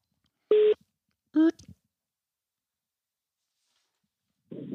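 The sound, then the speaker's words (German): A telephone call being placed: a few short electronic tones separated by long silences, followed by a burst of noise at the end. “Und wir wählen mal durch.”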